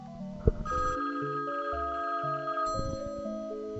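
Telephone ringing with an incoming call-in caller: bright electronic ring tones at a steady pitch, sounding in a few repeated bursts after a sharp click near the start.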